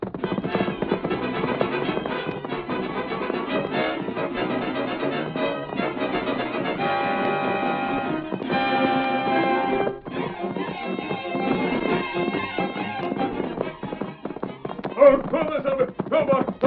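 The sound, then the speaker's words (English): Galloping hoofbeats of Silver, a horse ridden off toward camp, a rapid continuous clatter that runs the whole way through under a thick, steady backing sound. “Here, Silver. All right, old fellow. Now to ride to camp and get Tonto. Come on, Silver.”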